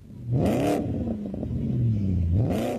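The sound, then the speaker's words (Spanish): A Changan car engine revs loudly, its pitch climbing, then sinking slowly, then climbing again, with no voices over it. “Sentí la innovación al volante de un Changán.”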